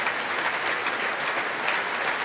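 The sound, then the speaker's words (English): An audience in a large concert hall applauds as a clarinet soloist walks on stage to perform a Mozart clarinet concerto with a symphony orchestra. The clapping is dense and steady, holding at an even level for the whole stretch with no voices. “Gemma New behind him, applauding him”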